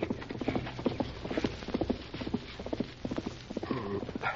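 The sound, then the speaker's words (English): Horse hoofbeats on a dirt trail leading past a cove into town as a rider approaches. Many steady clip-clop beats in an even, loping rhythm, moderately loud throughout. “heard hoofbeats on the trail that led past the cove into town. Someone's riding along the trail to town, Tonto.”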